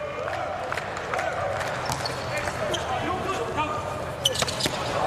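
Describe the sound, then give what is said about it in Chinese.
A volleyball serve by player number three in a match involving Turkey: sharp ball thumps cut through the steady roar of the crowd, with a louder hit near the end. “三号普拉尼辛奇的发球，”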